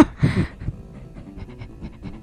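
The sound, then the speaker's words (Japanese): Rapid panting breaths of a person hyperventilating while driving: a louder gasping start, then many quick, shallow breaths that stay faint and even. “なんでまたもう過呼吸になってる。なんで過呼吸になってる。”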